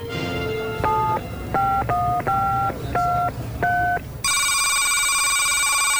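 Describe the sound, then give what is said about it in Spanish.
A telephone number redialed after hanging up: a quick series of touch-tone keypad beeps at varying pitches, then a loud steady tone that holds to the end. “colgó y volvió a marcar”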